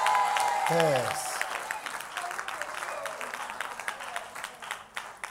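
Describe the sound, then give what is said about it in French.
An audience at a church service claps for the pastor's wife. A speaking voice comes first, then a dense, fairly soft wash of many hands that holds steady with a few sharper claps. “Acclamez pour la maman pasteur à côté de toi.”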